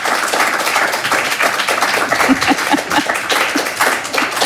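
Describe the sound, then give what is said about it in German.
Applause for a guest on a radio show: many hands clapping in a dense, steady patter that carries evenly through the whole clip without dying down. “Und der braucht, glaube ich, auch einen riesen Applaus.”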